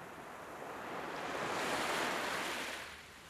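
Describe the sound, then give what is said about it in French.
Sea waves wash in at the seashore as a broad, steady hiss that swells to a peak and then gently recedes, with no voices. “Est-ce que vous entendez ? Nous sommes au bord de la mer.”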